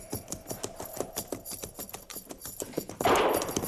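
Horses' hooves clip-clop as a group of soldiers rides, a steady, rhythmic patter of many hoofbeats that gives way to a louder, noisy burst near the end.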